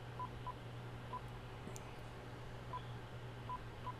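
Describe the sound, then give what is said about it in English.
A telephone keypad dials a number with several faint, short key tones spaced irregularly over a steady low hum. “Dial tone. Phone number here. I dialed the number wrong. Hold on. I'll try it one more time.”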